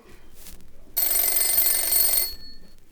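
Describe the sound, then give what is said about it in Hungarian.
A telephone bell rings in a bright, rapid metallic trill lasting over a second, with a faint, shorter ring just before it and a low background hum throughout. “Ez a telefon, ez egy budapesti vállalati irodában van, az a telefon pedig egy bécsi szálloda portáján.”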